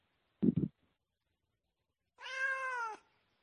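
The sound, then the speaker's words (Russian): A cat yowls in the background of a phone call with one drawn-out, wavering meow that holds for nearly a second, faint and alone. “Что у вас так кот орёт?”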